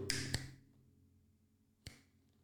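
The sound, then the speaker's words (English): Finger snaps by a person, a few crisp, sharp clicks. Two come close together, then a longer pause before the last one, with near silence between them. “Okay, each time I snap my fingers is a mile.”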